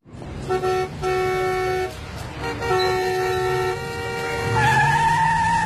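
Car brakes screech in traffic, then a horn honks, a bright tonal toot holding steady and ending in a rising squeal. Constant engine and road rumble stays loud underneath.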